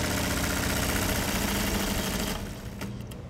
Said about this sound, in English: The vacuum arm picks up the fabric, moves it over to the sewing machine, which then sews them together.